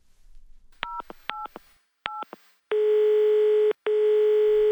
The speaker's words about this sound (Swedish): Jag ska ringa min kompis.